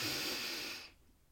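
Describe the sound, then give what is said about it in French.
Deep inhalation filling the belly and chest during a calming breathing exercise: a soft, airy breath hiss lasting just under a second, then fading to near silence. “Inspiration, je gonfle mon ventre et ma poitrine.”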